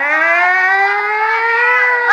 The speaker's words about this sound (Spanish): Abra paso que llegó la ambulancia.